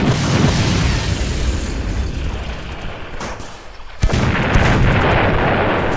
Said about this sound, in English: realigning guns to fire at 45 degrees. Hold on that. Closing in on 32 meters. Adjusting to 39 degrees. Fire with extreme prejudice!